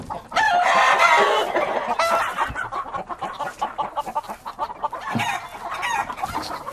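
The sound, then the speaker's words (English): Chickens cluck and squawk in agitation inside a coop disturbed by a stone marten. The loud, overlapping calls come in dense bursts, busiest at the start and flaring again later. No one speaks. “The chickens are unsettled.”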